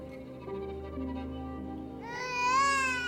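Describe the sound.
A baby cries with a wavering, high-pitched wail. It starts about two-thirds of the way through, over a steady low drone.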